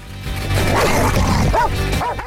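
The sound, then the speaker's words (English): An Alsatian barking from the back of a truck: a few sharp, yelping barks, most distinct near the end, cut through steady, loud background rumble. “Mr. Bean slows down a bit as the Alsatian barks at him from the back of the truck.”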